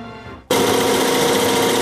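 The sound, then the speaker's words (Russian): A computerized embroidery machine in a Dallas workshop making Ukrainian vyshyvanka shirts starts abruptly after a brief quieter moment. It then runs loudly with a rapid, steady mechanical stitching chatter. “Ця машина щодня вишиває нові візерунки.”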